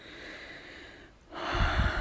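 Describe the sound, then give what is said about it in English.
A breath blown out: a faint steady hiss, then a sudden, loud, breathy exhale that rushes in near the end and carries on to the close. “Breathe on me.”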